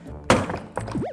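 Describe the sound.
A suitcase's zipper lock is struck with one heavy, dull thunk, followed shortly by a smaller knock.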